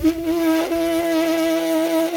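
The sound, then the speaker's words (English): Lips buzz into a brass instrument mouthpiece played without the instrument, giving a steady, sustained reedy tone that wavers slightly in pitch and holds at an even loudness throughout. “some of it is doing lip buzzing, which is like you do the process of playing a brass instrument, but without the instrument. And then you do it just on the mouthpiece part.”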